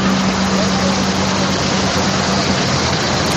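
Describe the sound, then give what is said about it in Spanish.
Tractors driving in a farmers' drought protest march in Madrid give off a steady, continuous engine drone with a low hum running underneath, unbroken from start to finish. “Tres columnas de cerca de 400 tractores procedentes de toda España han llegado a Madrid por norte, sur y oeste de la región.”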